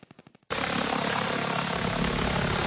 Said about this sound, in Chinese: 无人机缓缓升空，海巡署人员在海滩旁不敢大意，来回侦查。